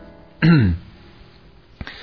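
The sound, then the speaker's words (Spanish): A man gives a single embarrassed cough, a short throaty rasp that stands alone in near silence. A faint click follows later. “Blanche suspira y Mitch tose cohibido.”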